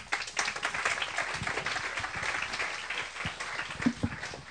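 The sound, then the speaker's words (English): Applause from an audience thanking presenters: dense, continuous clapping that fills the whole stretch at an even level, with no break. “Thanks, guys. Let's give them a hand.”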